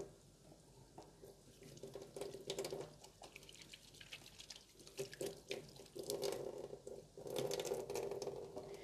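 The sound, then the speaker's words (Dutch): Running tap water pours steadily while hands covered in olive oil are washed beneath it, a faint continuous rush with fluctuating splashing and patter and no talking. “Even mijn handen wassen, want die zitten nou helemaal onder de olijfolie.”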